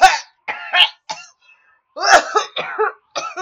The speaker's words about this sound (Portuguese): Ai, esta maldita tosse.